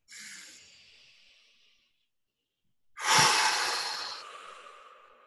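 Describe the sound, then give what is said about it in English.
A slow deep breath taken during a guided calming exercise: a soft, airy inhale fading over nearly two seconds, a short silence, then a louder, breathy exhale that trails off gradually. “So let's take a deep breath, okay? Ready? 1, 2, 3.”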